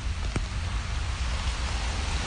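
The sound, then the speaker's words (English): Steady rain falls during a short, cold walk outdoors: a constant, dense patter and hiss of drops with no breaks and no voices. “It's a short but rainy, cold walk to our meeting spot, which is a Ghanaian restaurant called African Kingdom.”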